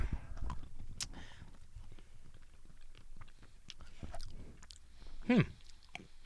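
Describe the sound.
Someone chews everything bagel seasoned cashews, with many soft, irregular crunches and wet mouth sounds, quiet and close, with no talking.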